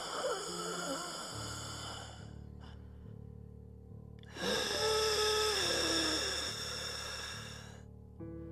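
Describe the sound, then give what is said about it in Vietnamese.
Heavy, raspy breath forcing all the air out of the lungs, hoarse, deep and drawn out, with a low steady hum underneath. “Cái này là cái tiếng người ta thở. Mà thở giống như là hả, đẩy hết trơn cái khí trong phổi ra thở một lần vậy đó. Trong cái tiếng đó nó có hơi khàn khàn, nó hơi đục đục mà nó nặng nặng nha.”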